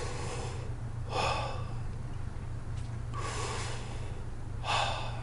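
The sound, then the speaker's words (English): A person takes a few deep breaths, each a slow rush of air, over a steady low hum. “And a couple deep breaths.”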